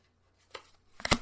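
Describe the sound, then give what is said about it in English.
A pack of hockey cards is torn open with a short, faint crinkle followed by a louder burst of papery rustling and crackling near the end. “The exciting portion of the show. 19 opening hockey cards on an audio podcast. But there we go. I didn't get too many cards in that pack.”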